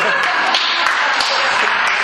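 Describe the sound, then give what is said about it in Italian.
Dense, continuous applause, loud and even from start to finish, made of many overlapping claps with faint voices mixed in. “Fatto un applauso.”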